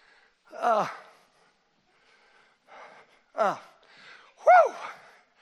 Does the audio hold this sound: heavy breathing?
yes

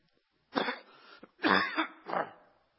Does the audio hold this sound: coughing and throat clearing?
yes

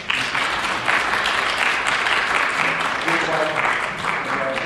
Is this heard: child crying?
no

